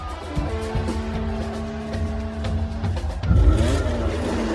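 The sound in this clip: Formula One race cars accelerating at a race start. Engines roar with a steady, layered whine that swells louder a little past three seconds and stays strong to the end.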